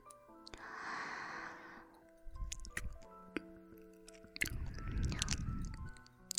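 Chewing during a meal of home-cooked dishes: faint, moist squishing and smacking in two stretches, with a few sharp clicks in between and no talking.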